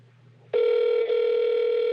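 Steady telephone tone at the start of a voicemail cuts in after a faint low hum and holds at an even, loud pitch to the end, dipping only briefly once.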